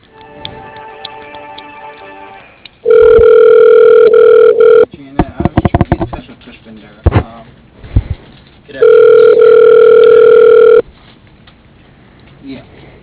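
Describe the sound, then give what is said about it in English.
A telephone call being transferred to voicemail: two long, loud, steady ringing tones on the line, separated by a stretch of clicks and short bursts, with quieter line tones before and after. “No, I can transfer you to her voicemail. Just a second.”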